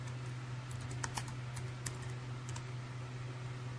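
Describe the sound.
Faint typing on a computer keyboard: a few soft, scattered key clicks over a steady low hum.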